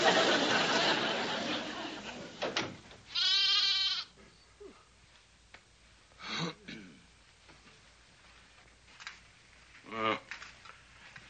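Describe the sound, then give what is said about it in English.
A lamb bleats at night, two wavering, nasal bleats spaced apart, with people talking in between over a quiet background. “You heard a lamb.”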